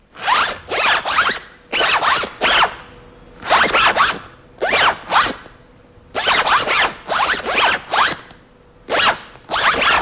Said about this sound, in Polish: Popularny suwak ma dziś 113 lat.